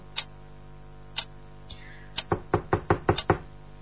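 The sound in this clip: Knocking on a door in the middle of the night: two slow single raps about a second apart, then a quicker run of several firm knocks.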